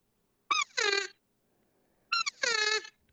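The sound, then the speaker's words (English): An open reed call imitating a mature cow elk sounds twice, each call a brief squeaky note followed by a longer, high, nasal mew, with about a second of silence between the two calls. “So I might throw an open reed call. It might sound like this, mature cow.”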